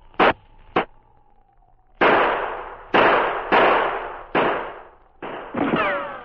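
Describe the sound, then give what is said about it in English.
Handgun shots ring out in a dark alley between two buildings: two short sharp pops, then several heavy, loud bangs, each with a quick decaying tail, spaced irregularly over a few seconds. No voices. “As he went down, he snatched his gun from the holster. He fired.”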